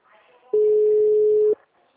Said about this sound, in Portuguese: WhatsApp. Tá tocando.